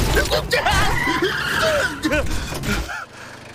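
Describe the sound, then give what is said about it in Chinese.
A car speeds and skids through a forest, with squealing tires and engine noise under overlapping wavering shouts, the roar fluctuating before dropping away near the end. “刚才真是太危险了， 竟然在森林里飙车！”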